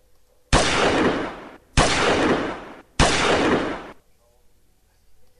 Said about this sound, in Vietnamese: Lương Tiểu Đồng không chút do dự, nã liền ba phát súng vào Phan Khả Hân, nhất thời ngã nghiêng trên đất không nhúc nhích.